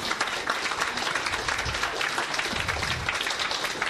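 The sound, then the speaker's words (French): Audience applause welcomes guests at a talk about the International Space Station, a dense, even wash of clapping that holds steady throughout. “On peut les applaudir.”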